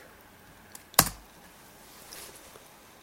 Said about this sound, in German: Ich gebe mal mein Passwort ein.